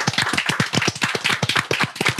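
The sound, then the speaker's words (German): Brisk, rhythmic hand claps ring out in quick succession, many sharp, evenly spaced strikes at a steady, fairly loud level with no voices over them. “Hier wieder sehr großes, sehr großen Applaus an den Fabi”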